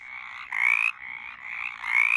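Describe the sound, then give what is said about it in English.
Mountain chorus frogs calling in Virginia: rasping, trilled croaks with two louder, rising calls standing out over a continuous buzzing chorus. “One of the reasons we're studying mountain chorus frogs is we're really trying to get a good idea of their distribution in Virginia.”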